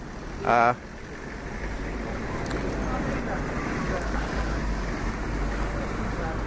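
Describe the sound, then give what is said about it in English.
Busy city street traffic on The Strand forms a continuous low rumble and hiss, broken near the start by one brief, louder tonal burst. “apologies for the background noise, because this is The Strand after all.”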